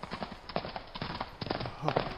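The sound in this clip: Horse hooves clip-clop from a ridden horse in a quick, uneven rhythm of many sharp hits that go on throughout.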